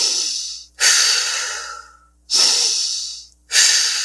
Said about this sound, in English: we're going to move into the circular breath, the halo active. This is a powerful inhale through the nose and exhale through the mouth.